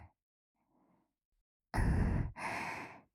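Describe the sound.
A person breathing out slowly, with two long, airy exhales in a row after a faint, soft breath.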